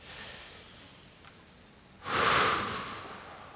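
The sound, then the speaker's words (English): A single deep breath, a soft breathy rush that swells suddenly after a quiet stretch and then slowly fades, heard alone and faint. “Do something with me. Breathe deep.”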